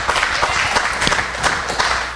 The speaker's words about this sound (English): Everybody clap for that one.